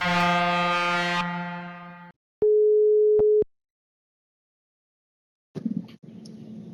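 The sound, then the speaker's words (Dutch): A telephone ringback tone sounds while a call is placed: one steady, pure tone about a second long. It follows a sustained harmonic chime and is followed by a short pause. Faint clatter and noise come in at the end. “Zullen we even bellen met Henk? We gaan bellen met Henk.”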